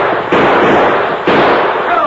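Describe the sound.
Two gunshots ring out on a frontier trail, each a loud, harsh burst of noise that hangs on in a long, hissing tail.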